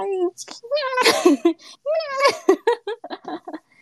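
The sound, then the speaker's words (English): A person's voice imitates a cat meowing early in the morning: several drawn-out, wavering mews mixed with bursts of giggling. “Like early in the morning, he'll start meowing. Right, he'll be like,”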